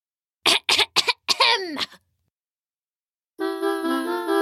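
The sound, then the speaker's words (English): Dramatic throat clearing: a few harsh, raspy bursts in quick succession, then a longer rough rasp that trails off. After a pause, a steady harmonic tone starts and holds. “He stood atop a dirty root and cleared his throat dramatically.”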